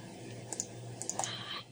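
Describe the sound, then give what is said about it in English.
Computer mouse clicking during an online tabletop role-playing game: a few quick, faint clicks in two small clusters over a low steady hiss. “don't click so much”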